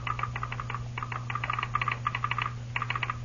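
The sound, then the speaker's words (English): Telegraph sounder in a telegraph office clicking out rapid bursts of sharp, dry clicks in irregular groups separated by short pauses, over a steady low electrical hum, with no voices. “The Lone Ranger, standing next to him, interpreted the click that came from the sounder.”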